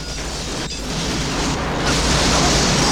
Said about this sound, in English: The ammo in the back explodes, shooting up like fireworks.